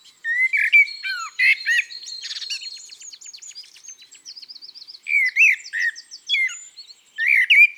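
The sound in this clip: Song of a common blackbird: fluty, warbling phrases delivered in bursts with brief pauses, interspersed with thin, rapid high chirps and trills.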